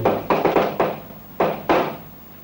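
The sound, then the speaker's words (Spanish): Knocking on a door: a quick run of four firm knocks, a short pause, then two more, each a dull thud. “Unos golpes en la puerta la sobresaltan.”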